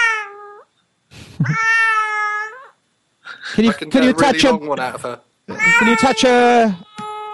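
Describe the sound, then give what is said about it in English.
A cat meowing loudly, several long, drawn-out wailing meows with clear pitch, separated by short silences. “What are you doing to that cat to make it make that noise?”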